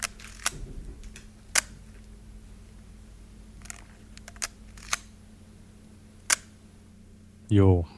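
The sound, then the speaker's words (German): A 1990 Leica M6 film camera shutter fires as several crisp, isolated mechanical clicks spaced irregularly over quiet background, followed by a brief voice at the end. “Geräuschrätsel 2 ist mit der Leica M6, Baujahr 90.”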